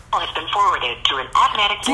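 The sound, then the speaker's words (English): A phone call goes straight to voicemail, and a narrow, tinny voice comes through the handset in short spoken phrases separated by brief pauses. “Straight to voicemail.”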